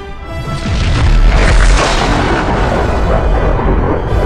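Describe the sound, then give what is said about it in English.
A huge explosion of detonated pods packed with liquid fuel and oxygen. A loud, deep, rumbling blast swells within the first second and roars on steadily for several seconds, with no voices. “Detonate the pods! I hope they like their present.”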